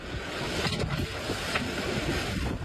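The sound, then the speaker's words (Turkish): Strong wind in a village during a windstorm roars into a mobile phone camera's microphone as a loud, continuous rumbling rush with gusty surges and no voices. “Rüzgarın şiddeti cep telefonu kameralarına yansıdı.”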